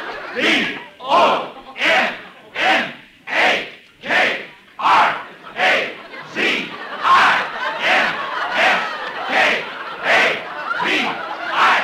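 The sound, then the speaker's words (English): A football crowd in a radio sound effect chants and cheers in a steady, driving rhythm. Many loud shouted bursts repeat at an even beat, with voices massed together throughout. “The crowd went wild. The rooting section stood up and began to cheer for me.”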